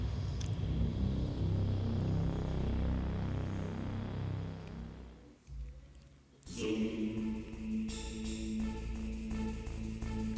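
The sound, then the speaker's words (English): Metal Gear approaches in a video game cutscene with a heavy, rumbling mechanical drone. The drone dips briefly, then abruptly gives way to a brighter humming tone with rapid stuttering pulses. “now we are rolling up on metal, what looks to be Metal Gear. Cutscene.”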